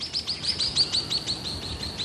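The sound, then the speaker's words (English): Call of an endangered swift parrot, a female sitting on her nest asking a male to feed her. It is a rapid, evenly paced series of short, high, sharp chirps, repeated many times without pause. “When a female swift parrot who is sitting on her nest wants a male to feed her, she gives a particular call.”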